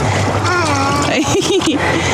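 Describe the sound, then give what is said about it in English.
The San Juan River, running high at about 950 CFS, flows with a steady rush and repeated splashes, heard under people talking. “And we're on the, San Juan River. The San Juan River. Beautiful. And it's flowing about 950 CFS right now, so lots of water for this time of year.”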